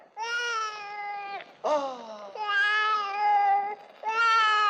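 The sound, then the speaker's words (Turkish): A baby crying in four drawn-out, high, harmonic wails separated by brief gaps, the second cry dropping in pitch, moderately loud and heard alone. “Bu da ne güzel bebek böyle. Ne ağlar durursun canım?”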